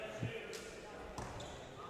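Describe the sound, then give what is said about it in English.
A free throw clanks off the rim and pops out during the third quarter of a basketball game. A few sharp knocks and a soft bounce stand out over steady background noise and faint voices. “First one up. Oh, caught a lot of the rim and then popped out. That soft bounce, I thought it was going to go ahead and drop through the cylinder, but the ball just refused.”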